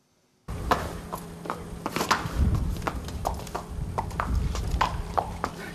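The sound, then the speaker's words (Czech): Hooves clop on the ground as a mare and her newborn foal are led outside for the first time at a national stud in Slatiňany, many irregular hoofbeats overlapping in a steady walking rhythm, with no talking. “Dnes tady ve Slatiňanech poprvé hříbě spolu s matkou vyvedli ven.”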